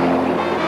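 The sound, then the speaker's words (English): Sound effect of water from a landslide destroying a building, a children's home: a dense, churning roar of rushing water, loud and steady for under a second. “What you just heard was the water destroying the building.”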